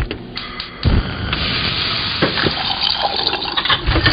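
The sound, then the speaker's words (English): Water gushes from a tap into a sink in a new kitchen fitted with state-of-the-art appliances, a loud, steady running stream with a few brief knocks mixed in. “Those are the sounds of a new kitchen package of state-of-the-art appliances with innovations to make everything from meal prep to cleanup easier.”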